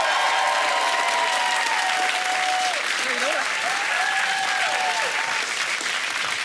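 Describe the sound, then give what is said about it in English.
A studio audience claps loudly and steadily as a singer is welcomed onto the stage, with several shrill whistles cutting through the dense, unbroken applause. “Can you put your hands together and welcome to the stage the brilliant singer, the ARIA Award-winning Anthony Kalea!”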